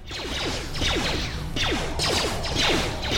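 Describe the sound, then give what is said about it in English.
Droid shield disruptor ability in a video game: loud, dense electronic swooshes with repeated downward-sweeping tones and crackling mechanical texture, running continuously. “There we go. Droid shield disruptor.”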